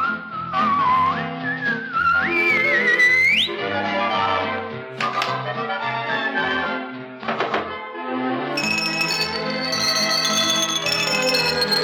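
Whistling in a song from a 1967 Spanish-language Disney Pinocchio record: a clear whistled line slides and climbs in pitch over orchestral accompaniment in the opening seconds, and the music continues afterward.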